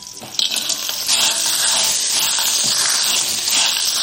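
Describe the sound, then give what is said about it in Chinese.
Scallion, ginger slices and clams sizzle in hot oil in a wok, a loud, bright, continuous hiss with crackling spikes that starts abruptly and stays steady, no talk over it. “油热了，倒入葱姜片爆香，然后倒入蛤蜊，”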